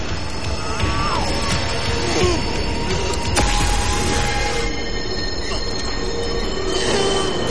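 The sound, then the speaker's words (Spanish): Train rushing fast through a tunnel, with a loud, continuous roar of wheels and high, shrill screeching tones squealing over it the whole time. “La luz del tren ilumina el túnel. Se acerca a gran velocidad.”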